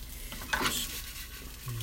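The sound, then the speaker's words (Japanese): Fried rice made from freshly cooked rice being stir-fried in a pan, a soft continuous sizzle with scraping stirring strokes, faint and steady with no voices. “とりあえず炒めましょう。強火でいいのかな、これ。”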